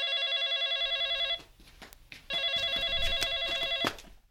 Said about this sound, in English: pick up the phone, please.